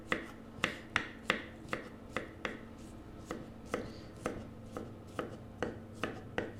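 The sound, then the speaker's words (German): A knife chops zucchini flesh into small pieces, with many quiet, sharp knocks in a steady, even rhythm about two per second. “Jetzt schneiden wir noch ganz kurz dieses Zucchini-Fruchtfleisch in kleine Stücke. Also einfach so ein bisschen klein schneiden.”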